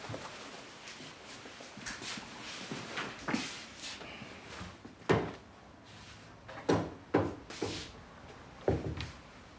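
Things being put away into a cupboard: several irregular wooden knocks, clunks and door or drawer bumps, fairly faint, with quiet shuffling between the sharper hits.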